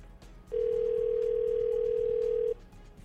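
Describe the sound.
A telephone ringback tone sounds while a call waits to be answered: one steady, mid-pitched tone holds for about two seconds, then stops, over faint background hiss.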